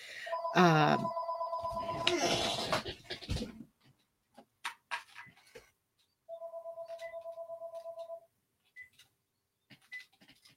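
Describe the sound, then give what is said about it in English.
An electronic telephone ring that keeps going instead of switching to voicemail: two bursts of a rapid, trilling tone separated by a stretch of noise and scattered clicks. “It's supposed to go to voicemail after the fourth ring and it's not doing that.”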